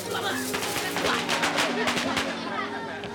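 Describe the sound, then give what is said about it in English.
Gunfire from a gangster movie shown on scratchy celluloid: many rapid, crackling shots over a dense, hissy background. The gunfire stays fairly steady in loudness and thins out slightly toward the end. “They watch as the gangsters in the movie get shot.”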